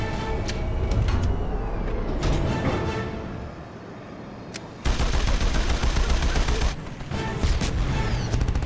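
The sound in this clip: Rapid gunfire from a ship's gun in a fight with eco pirates, a dense, continuous stream of shots that turns louder and harsher about midway, then eases slightly near the end.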